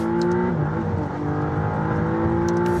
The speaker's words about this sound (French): C'est aussi la première McLaren à avoir un V6. Et oui, avant on était sur le V8. Écoutez la sonorité.